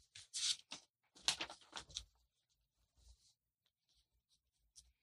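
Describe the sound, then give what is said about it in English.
Pen scratching across paper ballots as votes are written, several quick bursts of scratchy strokes, loudest at first and then fainter and sparser, with no talking. “Okay, we're going to write down our votes here. It's a secret ballot.”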